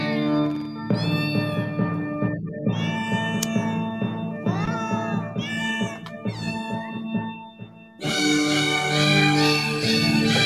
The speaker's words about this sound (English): Cat fight.